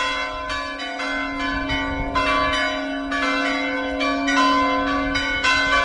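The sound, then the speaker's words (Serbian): Bells of a Serbian Orthodox church in Lovra ring out to call worshippers to a feast-day celebration, many overlapping strikes in steady succession over a sustained, humming resonance. “ovako je pozivalo zvono Lovranskog srpskog pravoslavnog hrama vernike na praznovanje prenosa moštiju Svetog oca Nikolaja u Bari”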